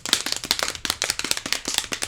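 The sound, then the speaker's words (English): Quick drum roll played to build suspense before introducing a guest: a steady, rapid run of many sharp percussive hits with even rhythm and level, heard alone with no talking. “So now, drum roll.”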